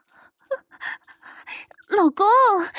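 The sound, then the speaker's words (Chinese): Heavy panting from someone who has drunk alcohol: a run of short, breathy gasps that ends in long, drawn-out voiced breaths close to a moan. “喝多了有点大喘气”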